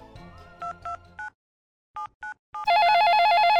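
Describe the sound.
Telephone call about an ad: six short keypad beeps in two groups of three with a pause between, then a loud, steady warbling ring tone that continues to the end.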